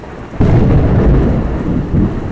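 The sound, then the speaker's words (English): Loud thunder rumbles over steady rain falling outside, a deep roll that begins abruptly and swells again near the end, with the hiss of rain underneath throughout. “all of a sudden it starts raining outside, and there's thunder strikes”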